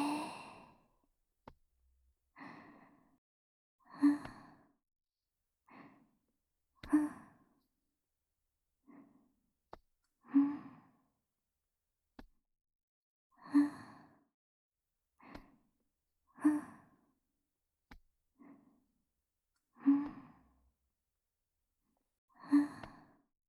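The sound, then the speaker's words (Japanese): Slow, deep breaths drawn in and let out, a steady series of sighing inhalations and exhalations separated by short quiet gaps, with no talking. “息をゆっくり吸って吐いて吸って吐いて。”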